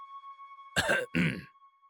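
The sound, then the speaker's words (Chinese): A man coughs to clear his throat in two short, forceful bursts a moment apart, over a faint steady tone. “于是咳嗽一声”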